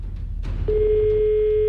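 A phone line tone after a call is cut off: a short click, then one steady, unbroken mid-pitched tone held to the end over low background noise.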